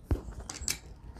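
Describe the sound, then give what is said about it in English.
Scissors snip off the folded edge of a sheet of paper, giving a few short, crisp cuts, the first one the loudest, with no talking over them. “now we just nip off the edge of this. It's folded there. So once we um, snip it”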